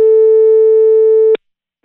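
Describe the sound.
Telephone ringing tone as a call is placed to a guest: one steady, loud, mid-pitched electronic tone holding for just over a second, cut off by a short click, then near silence.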